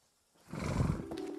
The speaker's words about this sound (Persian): آروم بهش بگو. اسبا چیزایی که شما حس میکنی اینا حس میکنن. اگه میخوای بهت اعتماد کنه باید سه کلمه رو بهش نشون بدی.